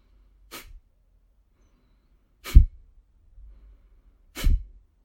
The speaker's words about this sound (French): Donc on exerce cette contraction du bas de l'abdomen lors de l'expiration, en soufflant vivement par le nez. Et on relâche tout simplement pour laisser inspirer.